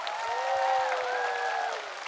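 Audience applause for a young singer and her band, a steady patter of clapping from a crowd with a sustained, held tonal sound riding over it throughout.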